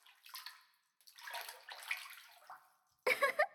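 Water sloshing in a bathtub as someone rises: soft, splashy washes of bathwater in uneven surges with short quiet gaps, ending in a louder, choppy splash.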